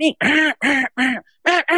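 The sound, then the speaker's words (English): Quacking from a hand-blown duck call worked to sound like multiple ducks: six loud, nasal quacks in a quick, even rhythm, with a short pause before the last two. “But if a call's a little bit thinner with good operation, you can make it sound like multiple ducks.”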